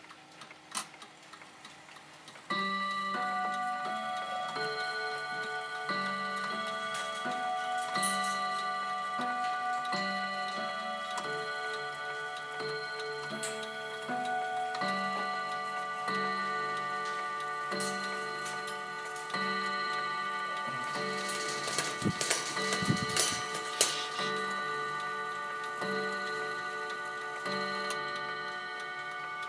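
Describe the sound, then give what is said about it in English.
A Westminster chime clock ticks steadily while ringing a long run of resonant, sustained chime tones that overlap and shift in pitch. “So I'm going to make this strike 8. This is a beautiful Westminster. Have a listen to this.”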